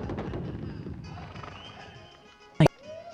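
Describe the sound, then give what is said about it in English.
Cavalry horses kept in a makeshift corral on the outskirts of a Mexican camp shuffle and stir with soft hoof clatter and a faint whinny, broken near the end by one sharp, loud knock. “come upon a makeshift corral where a larger number of cavalry horses are being kept.”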